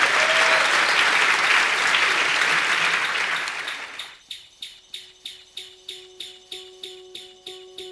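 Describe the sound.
An audience applauds to welcome a guest, loud and dense for about four seconds before fading away, followed by a regular, evenly spaced pulsing chirp that repeats many times.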